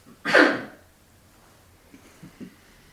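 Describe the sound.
A single loud, sharp sneeze bursts out, followed after a pause by a few faint short breaths or sniffs.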